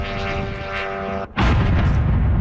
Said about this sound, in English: That's one drone hitting an apartment building in Kyiv.